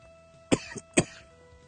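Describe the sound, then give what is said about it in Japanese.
Sudden coughing from one person: two sharp, loud coughs about half a second apart with a softer throat sound between them, over a faint steady electrical hum. “配信始めたら急に咳が出だしましたけどね”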